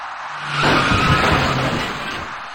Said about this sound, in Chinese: 可是一辆由西向东而来的白色小客却继续向前，片刻过后，他将一位由南向北而来的电动自行车骑车人撞翻